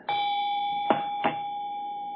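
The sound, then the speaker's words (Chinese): A small bell hanging on a pagoda rings with a steady, clear, sustained tone, and two soft knocks sound partway through while the ringing carries on unbroken. “有这个铃铛啊，这个铃铛啊就响的，就是这个铃铛啊，就是这个铃铛。”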